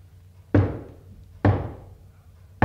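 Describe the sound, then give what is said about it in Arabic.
Loud knocking on a door: three heavy, separate knocks spaced about a second apart, each a booming thud with a short fading ring, with no talk. “ابدا، دي خبطة عالي”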